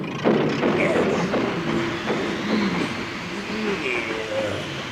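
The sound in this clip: A train locomotive moving onto a side track, with a continuous rumbling, clattering roll that stays fairly loud throughout and a voice speaking over part of it.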